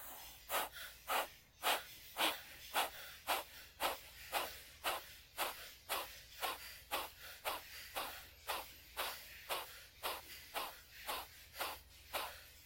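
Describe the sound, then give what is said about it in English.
Rhythmic breathing in a guided breathing exercise: many quick, evenly spaced airy breaths that pulse strongly and keep a steady tempo with no talking. “Take a normal inhale and exhale and then jump right back into it, okay? Right, close the eyes, sit up tall. Take a normal inhale, exhale. Here we go.”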